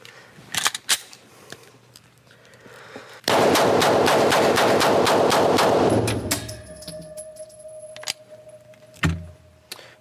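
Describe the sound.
Gunfire from a gun being fired for timing: one dense burst of many rapid, sharp shots lasting about three seconds, loud and continuous, with a few scattered clicks and knocks before and after it.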